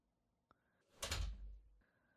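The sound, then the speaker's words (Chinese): An office door being closed: a faint click, then a soft swoosh and low thud, fairly quiet. “进来吧，把门关上。”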